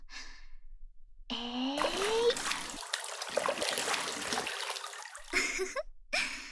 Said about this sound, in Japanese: お湯あふれちゃったね。